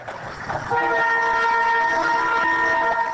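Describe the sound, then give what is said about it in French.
Sustained train horn from a humanitarian train's locomotive pulling seven wagons loaded with 277 tonnes of food, arriving at Kindu from Lubumbashi; after a brief rumble, a loud, steady multi-tone horn chord holds to the end. “C'est l'arrivée à Kindu ce matin du train humanitaire parti de Lubumbashi depuis le 5 octobre dernier, tirant 7 wagons avec 277 tonnes de vivres.”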